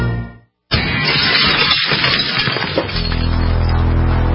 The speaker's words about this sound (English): In the U.S., one in every 50 homes will have a break-in this year. Burglars call it smash and grab.